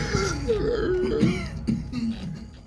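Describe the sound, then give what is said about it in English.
Someone clears their throat in a rough, guttural run of rasping, coughing bursts lasting a few seconds, loud and close-sounding, with no words spoken. “You can say it again and clear your throat.”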